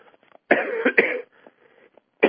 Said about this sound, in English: Sorry. I still got a cough in my throat.